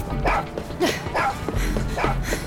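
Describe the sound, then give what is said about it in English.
A male dog barks repeatedly, giving a series of sharp barks and higher yips spaced across the moment, with faint background noise between them. “Okay, why am I talking to a dog? Hold on, boy.”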